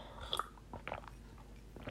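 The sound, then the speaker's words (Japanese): Sipping a drink: a few faint, short wet mouth sounds with small clicks, spaced irregularly against a quiet background. “飲ませていただきます。”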